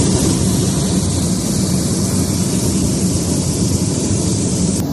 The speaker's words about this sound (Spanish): Eso es lo que se oía dentro del avión, ya sin esa ventana.